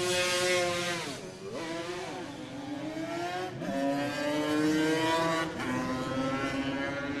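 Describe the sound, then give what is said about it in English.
A 350cc Yamaha TZ racing motorcycle ridden at a motorcycle road-racing event, its loud, high-pitched engine note dropping sharply and then climbing again twice, like gear changes under hard acceleration, with no talk over it. “It's great to see Charlie here today, 50 years since his first TT win, as he rides his 350cc TZ Yamaha”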